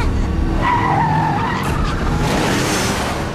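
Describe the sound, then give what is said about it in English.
Truck tires skid loudly as the truck runs a person down in a parking lot, crushing her into a fence: a continuous harsh, rumbling scrape with a squealing tone early on, steady and loud throughout, no voices. “Suddenly, the Terminator's truck mows her down and crushes her into a fence.”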